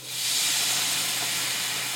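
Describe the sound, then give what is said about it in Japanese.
Loud steam hiss as about 30 ml of shochu and 50 ml of water hit a hot pan of browned cod pieces. The hiss swells quickly and then holds steady and bright for about two seconds. “僕はねちょっと焼酎 30cc とお水を 50cc ぐらい入れてえー、それで蓋してますね”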